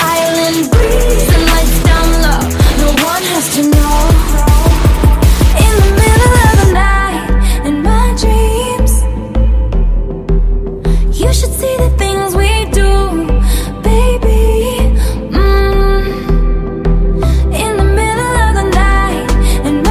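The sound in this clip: A female singer's pop song from her sixth studio album opens with a bright, plucked synth pattern, then at about six seconds breaks into a loud, dense, beat-driven arrangement with a steady pulsing rhythm.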